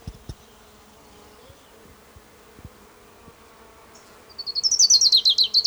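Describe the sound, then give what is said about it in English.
Ground warbler song: a rapid, thin, very high-pitched run of chittering notes that enters suddenly near the end after a quiet stretch broken only by a few soft knocks. “Ground warbler number 3.”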